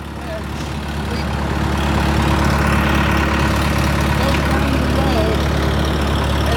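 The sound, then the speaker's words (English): The engine of orchard equipment idles, a tree shaker that clamps onto trunks and a sweeper with a blower on the back: a steady, loud, low mechanical drone that holds unchanged throughout. “That's a sweeper with a blower on the back of it, and this up here is a shaker. This is the part that clamps onto the tree trunk.”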